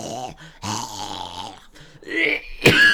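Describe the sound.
A man's voice imitates a goose hissing, with throaty grunting sounds that build into a harsh, raspy, strained burst near the end, loud and alone.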